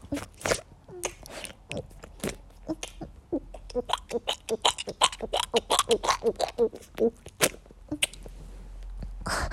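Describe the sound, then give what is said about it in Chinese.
Crunchy chewing of a snack, with many rapid, irregular crunches and bites following one another over steady low background noise. “我在吃好吃的东西啊，没事儿，我吃点东西又不影响我打游戏的啊。”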